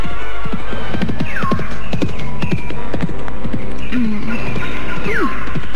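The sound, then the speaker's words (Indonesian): Horse hooves clopping toward the listener: many sharp, uneven hoofbeats over a constant low hum, with a few high gliding calls breaking through. “Suara langkah kuda menuju ke arahku.”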